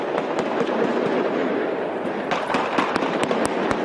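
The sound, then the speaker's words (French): Sustained gunfire during a police assault on a hostage siege at a kosher grocery, with many sharp cracking shots ringing out over a dense, continuous roar, the reports coming faster and louder in the second half. “C'est l'assaut qui débute. Des tirs nourris pendant de longues secondes.”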